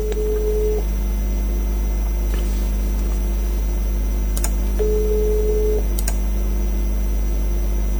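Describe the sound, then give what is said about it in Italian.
A telephone ringback tone on an outgoing call, heard as two steady mid-pitched tone bursts about four seconds apart over a constant low hum. “Sto chiamando Casalena.”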